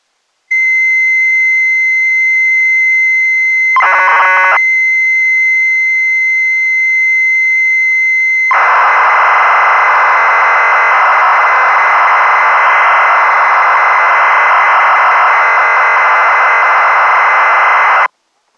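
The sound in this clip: Loading tones from a computer program for a UFO game, played back so a BASIC machine can read it. A steady, loud, high whistling tone holds for several seconds, then a brief warbling burst, then returns. A long, dense, screeching data stream follows and cuts off abruptly.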